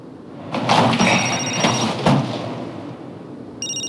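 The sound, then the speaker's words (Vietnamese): A telephone rings in bright, high tonal bursts over rustling and a couple of dull thuds, with the clearest ring starting near the end. “Nè, Thái Ni gọi cho tôi rồi.”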